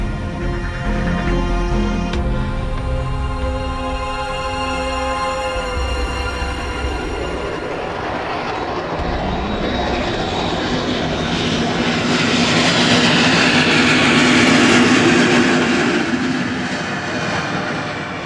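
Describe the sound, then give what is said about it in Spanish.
Airplane engines roar overhead as aircraft pass, a broad, steady drone that swells louder toward the end, with no voices. “El paso de los aviones del misterio.”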